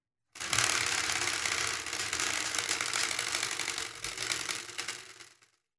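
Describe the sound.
A prize wheel spun for a game gives a dense, rapid ratcheting rattle of clicks that runs steadily for about five seconds, dips briefly near the end, then fades out.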